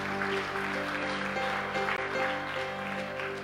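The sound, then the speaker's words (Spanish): Audience in a church applauding people who committed their lives to the Lord, a steady wash of clapping blended with sustained keyboard chords. “Come on, can we give all of those wonderful people a hand tonight? Come on, can we give them a hand? Vamos, un aplauso a todas las personas que le entregaron su vida al Señor.”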